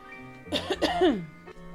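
Someone dealing with congestion and asthma coughs a few short, throaty bursts that trail into a voiced, falling rasp, fairly soft and heard alone against quiet background.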